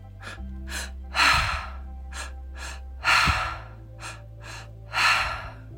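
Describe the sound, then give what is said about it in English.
Breathwork done through the mouth, with inhales into the belly and chest followed by an exhale: repeated cycles of airy breaths, three louder gusty ones standing out among shorter, softer breaths, over a sustained low drone. “This consists of two inhales through the mouth. First, breath in through the belly. Second, breath into your chest, followed by an exhale through the mouth. It goes like this.”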